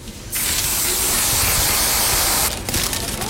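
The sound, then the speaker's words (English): Whipped cream hisses from a spray can onto mini cake donuts at a donut shop. A sudden, loud, continuous spray runs for about two seconds, then breaks into a short sputter. “It is like we'll shoot a little bit of whipped cream in there.”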